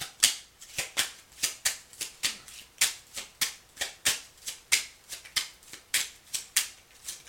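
Tarot cards are shuffled in a rapid, steady rhythm of crisp, papery snaps, many in a row with no talk.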